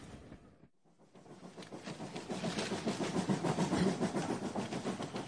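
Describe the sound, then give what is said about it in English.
A fast train running on rails to London makes a rhythmic clickety-clack. After a short quiet gap near the start, it builds into a steady, sustained rumble of repeating wheel beats. “This is the fast train. Only 1 hour and 10 minutes.”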